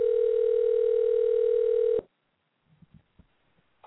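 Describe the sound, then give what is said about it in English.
A telephone dial tone heard while a call is being dialed: a steady, unbroken mid-pitched hum holds for about two seconds and then cuts off abruptly, followed by a few faint, scattered clicks and quiet line noise. “On that note, I'm dialing up Kyle from the Sword.”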